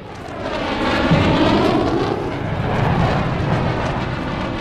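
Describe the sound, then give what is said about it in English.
Russian warplanes fly overhead with a loud, continuous, rumbling jet roar that holds steady throughout, with no voices. “That is the sound of Russian warplanes that are a constant threat in this film overhead.”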